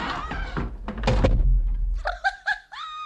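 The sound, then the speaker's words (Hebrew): A door being shut from outside lands with a dull thud in the middle of a spoken drama scene. Voices come before it, and voices or laughter come after it. “אז סגור את הדלת מבחוץ.”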